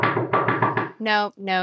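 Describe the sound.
A voice imitates knocking on a bedroom door at night with a quick run of five short, knock-like vocal pulses, followed by two longer sustained vocal tones.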